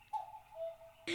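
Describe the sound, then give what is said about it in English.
A cuckoo clock chimes with a faint two-note call falling in pitch, followed by an abrupt burst of noise. “The cuckoo clock's chiming in.”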